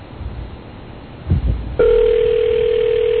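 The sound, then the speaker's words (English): A phone call is placed to reach a voicemail message. After a few brief clicks over line hiss, a steady mid-pitched ringback tone starts and holds unbroken to the end. “New York businessmen are getting a kick out of passing this number around and calling to hear his voicemail message.”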